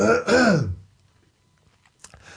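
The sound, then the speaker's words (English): A throat clearing, a harsh voiced rasp lasting under a second, followed by near quiet and then a brief noisy burst at the end. “Oh, I'm going to start coughing again.”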